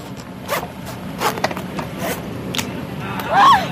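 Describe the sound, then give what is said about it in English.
A bone saw cuts open the head of a yellow-edged grouper in a series of uneven, scratchy rasping strokes, with a brief voice near the end. “When they're done with that, they reach for the bone saw.”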